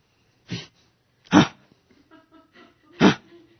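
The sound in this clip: A voice imitates a dog barking to guard its yard: three short, gruff bursts spaced unevenly apart, with faint small sounds between them.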